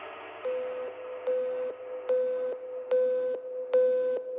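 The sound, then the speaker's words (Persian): A telephone busy signal plays after a busy number is dialed. Five steady, identical tone pulses repeat at an even on-off rhythm over a faint background wash. “The number you have dialed is busy now. Please try again later.”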